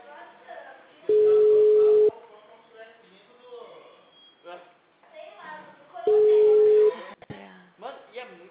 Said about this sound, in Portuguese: Atende aí, tá chamando?